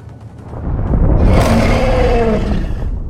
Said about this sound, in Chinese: 大地仍然在震颤，食人魔的咆哮声愈发清晰了，随后的一声咆哮几乎震得他的耳朵流血。